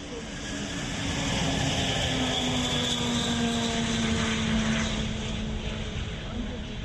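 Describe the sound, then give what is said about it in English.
A steady, loud droning roar comes from the world's heaviest and largest cargo aircraft flying at an international air show in Kyiv, swelling in during the first second and holding a constant powerful hum throughout. “Ukraine's crown jewel Maria, the world's heaviest and biggest carrier aircraft, was the highlight of the performance.”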